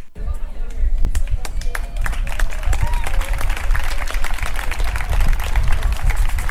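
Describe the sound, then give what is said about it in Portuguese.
Indigenous group Guerreiros do Apucaraninha performs a ritual dance at a university anti-racism march, with many sharp stomping or clapping beats over dense crowd murmur and voices throughout. “há a previsão do grupo Guerreiros do Apucaraninha está fazendo uma dança, está alguns cânticos, né, indígenas, para ritualizar esse evento.”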